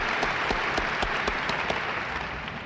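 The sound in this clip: Applause from an audience of 2,000 delegates at Prague's Trade Fair Palace greeting a star guest, a dense, steady wash of many hands clapping that stays loud and even throughout, with individual sharp claps popping out of the roar.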